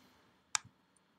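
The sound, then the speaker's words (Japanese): A single sharp mouse click from right-clicking in Google Chrome, followed a moment later by a softer, duller tap. Both are faint and brief against near silence. “この右クリックしていただくと、Chrome から削除というのがありますので、そちらをクリックしてください。”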